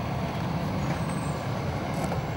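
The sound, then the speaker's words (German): An emptied iron ore truck drives back into a mine tunnel with a steady, loud low rumble. The engine drone holds even throughout, with no distinct events standing out. “Das ist ausgeleert und fährt jetzt wieder rein, um neues Eisenerz zu holen.”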